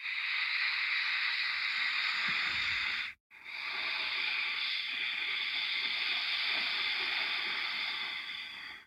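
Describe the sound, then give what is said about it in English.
Ujjayi breathing, a soft, steady hiss from a contracted throat, heard as two long breaths: one of about three seconds, a brief pause, then a longer one of nearly six seconds. “But keep in mind, Ujjayi breath for 5 to 10 minutes a day is really useful. So it sounds like this.”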